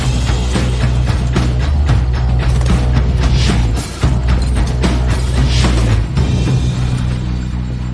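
Mechanical clanks and ratcheting clicks as a weapons and ammunition cabinet is opened, with many rapid metallic hits over a steady low hum, loud and continuous.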